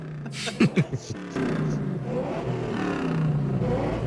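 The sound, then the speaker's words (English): A car engine revs in an old movie scene while the driver sits talking to the sheriff. It is a steady, throaty drone that swells slightly over several seconds, with a brief voice near the start. “He's like sitting there talking to the sheriff, just revving the car up.”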